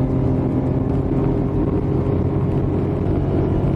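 Car engine pulling in fourth gear gives a steady, low droning note with a constant rushing noise layered over it, holding an even level from start to finish with no voices.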